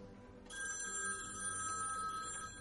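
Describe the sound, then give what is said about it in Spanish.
A telephone rings inside a house: a steady electronic bell tone starts after a brief quiet moment and carries on unbroken, fairly faint throughout. “Va hacia el teléfono.”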